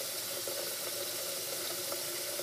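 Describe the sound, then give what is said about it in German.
Water running from a kitchen tap into a pot being filled for the stove, a continuous, even gushing hiss that stays steady without pauses. “Vielleicht sollte ich mir auch einen Schlaftrunk aufbrühen. Ich setze schnell in der Küche Wasser auf den Herd.”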